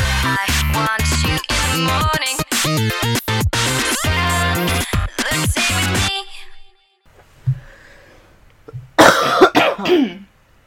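Coughing and throat clearing come after a loud stretch of music: a few short, rough bursts following a near-silent pause, with the final harsh clearing the loudest.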